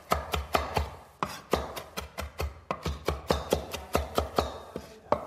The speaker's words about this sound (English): so just run your knife right through it. You want to make sure that you get a nice fine chop here.